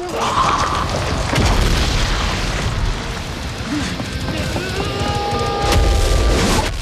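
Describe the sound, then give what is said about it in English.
A skull's head explodes in a fight scene with a deep, loud boom, followed by several seconds of rumbling, crackling blast noise. “The skull's head explodes.”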